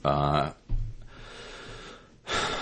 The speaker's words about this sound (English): That was a long, deep breath.